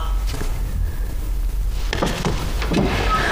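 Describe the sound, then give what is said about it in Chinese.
A door being opened, heard as a brief rattling and scraping burst that rises out of a steady background hiss partway through. “苏麻，把门打开。”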